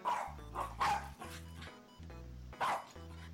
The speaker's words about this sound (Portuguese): Com fome, com frio, latiu muito, reclamou, mas ninguém lhe deu atenção.